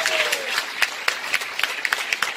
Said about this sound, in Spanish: Un aplauso y alabanza.